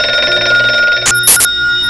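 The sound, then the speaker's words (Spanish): A telephone rings loudly in a steady tone, broken by a couple of sharp, bright bell-like bursts near the middle, with no voices. “La madrugada del 16 de abril de 1971, una llamada de teléfono despertó a Gil Parrondo en plena noche.”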